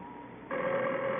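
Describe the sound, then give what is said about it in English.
A telephone rings, a steady electronic tone that begins partway through and holds at an even level to the end, with no voices over it. “the phone. I know it's the phone.”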